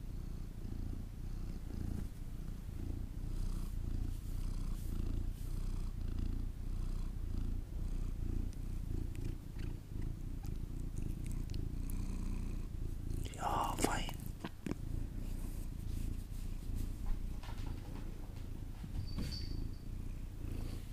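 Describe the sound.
A cat purrs while being stroked, a faint, continuous low rumble that runs unbroken through the whole clip, with soft whispering and a brief rustle partway through.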